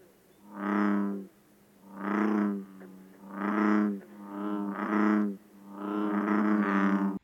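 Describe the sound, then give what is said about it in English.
Bullfrogs call with green frogs in the background, giving a series of deep, resonant croaks. Each one is drawn out and swells and fades in a slow, irregular rhythm, some running together near the end. “Here is the sound of bullfrogs with green frogs in the background.”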